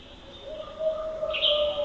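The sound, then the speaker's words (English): An owl calls among a chorus of other birds in Big Beaver Valley in the North Cascades of Washington State, a faint layering of sustained whistles and chirps holding steady tones, with a brighter, higher call rising in the middle. “An owl joins a chorus of other birds at Big Beaver Valley in the northern end of the park.”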